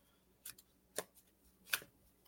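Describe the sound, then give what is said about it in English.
A tarot card is pulled from a deck, making three sharp, crisp snaps spaced apart, each brief and quiet, with no talk over them. “Let's pull you a card first. That would give him a chance to respond if he would like. Let's see what we're getting.”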